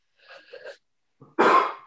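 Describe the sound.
A single human sneeze: a short breathy, voiced build-up and a brief pause, then one loud, sharp burst that trails off quickly.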